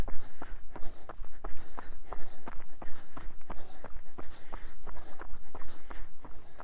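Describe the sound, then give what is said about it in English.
Footsteps of a neighbor walking by, many even, regular steps at a steady walking pace, each a crisp, fairly loud tap. “And we're going to have a walking neighbor. This is the lady who never talks, just smiles.”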